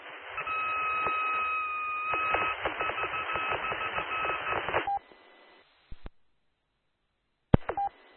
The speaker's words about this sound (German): und ein paar Zentimeter weiter ist der kleine auf einer Platine, der Morse-Generator. Und wenn ich dann mit der Antenne in der Nähe der Elektronik hier von dem 800 Hertz CW-Ton, pass mal auf, dann verändert der sich.